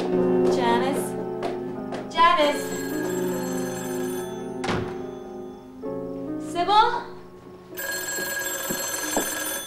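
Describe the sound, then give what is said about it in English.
A telephone rings in a few warbling electronic bursts, loud and tonal, with a sustained ringing tone between them. “She puts down her bag and answers the phone.”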